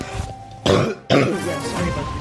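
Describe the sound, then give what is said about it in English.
A person coughing: two harsh, loud bursts in quick succession, each short and rough, with no speech. “sorry about this pesky cough”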